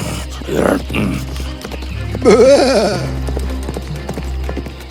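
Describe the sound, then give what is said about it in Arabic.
A horse neighs loudly in one wavering whinny near the middle, with softer sounds before it and a steady low background hum. “صهيل جوادي العالي أيقظ العملاق من نومه وكان غاضبا”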